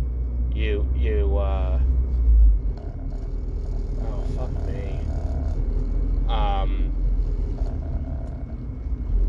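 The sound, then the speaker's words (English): Steady road noise inside a moving car, a constant low rumble with a brief louder surge, while a person talks over it at moments. “Sorry, there's a car accident up ahead. Because I tend to record these while I drive, anyone who's listening to this for the first time.”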